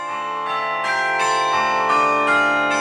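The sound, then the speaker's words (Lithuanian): Carillon bells ring out over a city, struck tones arriving roughly every half second and overlapping into a dense, sustained, shimmering chord, loud and steady throughout with no voices. “Miestą apkabinantis varpų gaudesys ir tarp dūžių įsiterpinti kūnų jaučiama tyla. Kai skamba kariljonas, sunku likti abejingu, net jei tiesiog skubi savo reikalais.”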